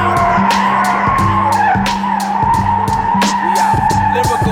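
Tires skid and squeal as a car accelerates hard, a sustained high squeal that runs through the whole clip over a loud, rhythmic music beat.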